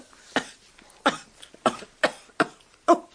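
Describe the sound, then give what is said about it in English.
Someone choking on a fishbone coughs six times in harsh, separate bursts spaced about half a second apart, with no talk between them. “Oh, a fishbone in my throat.”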